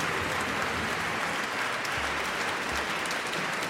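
Audience applause at the final of a YouTube composers' competition, a steady, even patter of many hands clapping at moderate loudness throughout.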